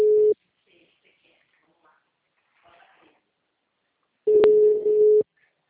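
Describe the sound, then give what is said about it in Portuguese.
Telephone call tones sound while a call connects. A short steady beep is followed by near silence with faint scattered noises, then a longer beep at the same single pitch. “Espera que agora vai entrar a ligação.”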